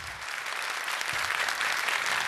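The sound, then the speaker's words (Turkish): Studio audience applause fills the whole stretch, a thick continuous patter of many clapping hands that swells slightly louder toward the end, with no talk over it. “Çok teşekkür ediyoruz efendim kıymetli alkışlarınız için.”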